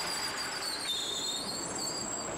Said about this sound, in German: Die Vogtlandbahn fährt nun direkt in die City. Die Eisenbahn wird zur Straßenbahn.